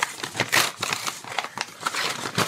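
Paper rustles and crinkles as a small gift envelope with a name on it is opened, many quick, scratchy bursts of handling noise tumbling over one another.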